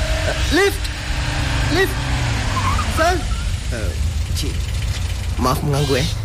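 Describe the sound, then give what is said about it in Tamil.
A car engine's low, steady rumble runs beneath people talking, with no clear rise or passing sweep. “அங்க பாருங்க ஒரு car வருது”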